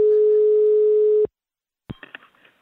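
Telephone tone heard while placing a call: a loud, steady, buzzing tone holds for just over a second and cuts off abruptly, followed after a short silence by a click and some faint clatter.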